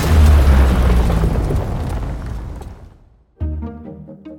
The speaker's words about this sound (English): So why do so many trailers use the booj and other super aggressive sound effects?